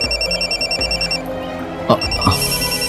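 A mobile phone ringing with an incoming call: an electronic ringtone of bright, steady tones repeating in a looping melodic pattern, fairly loud and continuous throughout, with no talking.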